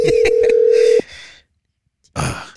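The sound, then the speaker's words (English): A telephone ringback tone on a call: one steady, low-pitched tone lasting about a second, with clicks and rustling over it, then a pause and a brief burst of noise. “Once it reaches the third ring, they're not picking up, bro.”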